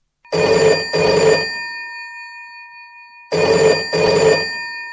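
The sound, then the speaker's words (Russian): Old telephone bell ringing in two bursts, each made of two loud metallic rings, with a long pause between the bursts and a faint tone hanging on after each burst. “И в это время затрещал телефонный аппарат.”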